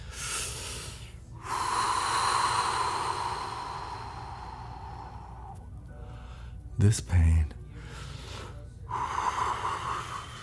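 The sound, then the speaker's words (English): A deep breath: a long, audible inhale of several seconds, then a pause with a couple of brief low bumps, and a further breathy exhale toward the end. “I'm going to take a deep breath right here.”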